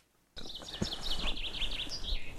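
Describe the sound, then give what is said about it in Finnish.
A common chaffinch sings from an oak branch in a spring oak grove. After a short silence, its song begins abruptly with a quick series of bright, high chirping notes that stays fairly loud throughout. “Peippo siellä on. Joo. Tammen oksalla istuu.”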